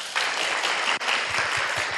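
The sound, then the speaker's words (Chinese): A gathering at a Buddhist temple gives another round of applause: dense, steady clapping that dips briefly near the middle, then carries on at the same level. “再一次掌声。”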